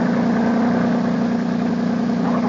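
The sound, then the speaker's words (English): Engine drone of a big motorboat, a loud, continuous low hum with a strong steady tone that holds at an even level throughout, with no pauses or other sounds. “There's a big motorboat coming this way.”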